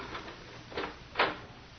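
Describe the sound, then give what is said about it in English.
A lock being turned and a door opening: a few faint clicks and rattles, the last one the loudest, set against a low, quiet background. “This lock doesn't want to work. Well, try turning it the other way.”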